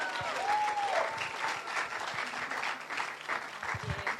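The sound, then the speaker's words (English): An audience claps to welcome a speaker to the front at a church gathering. The applause is fairly soft and even, with dense overlapping claps that swell slightly at the start and then hold steady. “Let's give a big, warm welcome to Helen Turner.”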